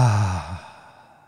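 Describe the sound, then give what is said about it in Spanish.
A deep exhale through the mouth during a guided breathing exercise: one voiced sigh of about half a second that fades into soft breathy air. “Hazlo otra vez dos veces, inhala por tu nariz y exhala por tu boca.”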